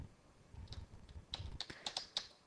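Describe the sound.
Code being typed on a computer keyboard: a quiet, uneven run of light key clicks that grows denser toward the end, with no talking.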